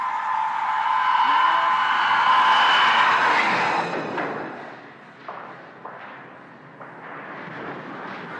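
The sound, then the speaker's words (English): A torpedo impact explosion aboard a submarine: a loud, broad roar lasting about four seconds, then fading into fainter scattered thuds and knocks. “eight, seven, six, five, four, three, two. Torpedo impact.”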